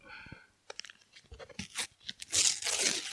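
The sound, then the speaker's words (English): A packet is torn open aggressively. Scattered crinkles and crunches of handling build into a loud, ripping tear that dominates the final second. “That was an aggressive tear. I've picked up the mic, and now I've got to get him out of the packet.”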